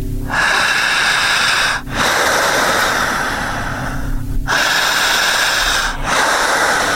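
Strong, deep breaths drawn in during a hypnosis breathing exercise: long, loud, rushing airy inhalations separated by brief pauses, with no talk over them.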